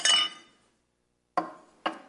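Three sharp glass clinks from shards being picked up ring out alone, each bright tap decaying quickly into silence.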